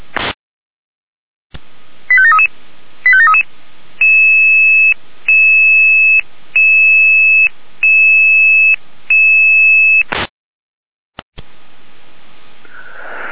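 Electronic fire brigade dispatch alarm tones call out a volunteer brigade for an oil spill support job: a few quick shifting beeps, then six even, sustained tone blocks in a steady rhythm, followed by a click and soft static hiss.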